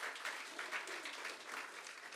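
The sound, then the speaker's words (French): Audience applause in a church, a steady patter of many clapping hands, soft and continuous with slight swells throughout. “Est-ce qu'on pourrait leur donner une main d'applaudissement, les encourager, parce que c'est vous qui faites briller l'Église.”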